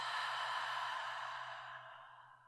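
A deep breath released through an open mouth during a guided breathing exercise: one long, airy exhale heard alone that slowly fades over about two seconds.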